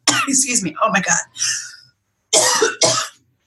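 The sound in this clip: Harsh coughing and throat clearing from pollen irritating the throat: a ragged run of loud bursts, a short pause, then two more strong, rasping coughs.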